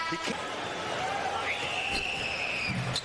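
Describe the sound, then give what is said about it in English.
Missed free throws clunk off the rim during a Toronto Raptors basketball game, a few dull thuds rising over a steady wash of arena crowd noise. “that clunk you're hearing are the missed free throws of the Toronto Raptors”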